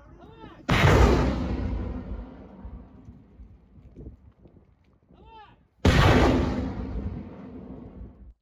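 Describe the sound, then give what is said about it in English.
A rocket salvo fired from a launcher mounted on a pickup truck in a war zone. Two loud, sudden blasts are each followed by a long roaring, rumbling tail that slowly dies away. “fire off the rockets with a matter of seconds, and within a minute, at a speed around 70 miles per hour, they race across the field toward Ukrainian positions. This is the sound of a salvo from such rockets.”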